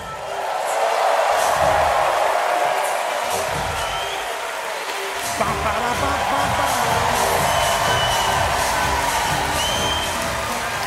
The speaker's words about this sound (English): Please put your hands together and welcome on stage, Dara O'Brien.